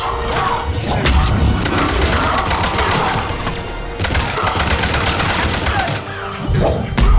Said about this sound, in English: I'm just gonna shoot a bunch of powers into this general zone.